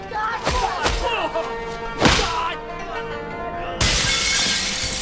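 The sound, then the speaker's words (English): Glass in a tailor's shop window shatters as a gangster is kicked through it: a few sharp crashing impacts, then a loud, bright, sustained burst of breaking glass. “A group of gangsters close in and the coolie kicks one of them through the window of the tailor's shop.”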